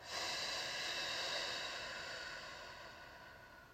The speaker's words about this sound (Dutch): Je mag wat rustiger ademen. Diep in. En ook weer uit.